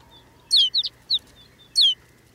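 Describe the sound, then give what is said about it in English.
High, bright chirping calls from a flock of snow buntings, sparrow-sized Arctic songbirds settling on bare brown ground. About five short chirps come in uneven bursts over a quiet background. “Now it's clear that rolling white cloud isn't snow at all, but a flock of snow buntings. These birds bring the barren landscape to life.”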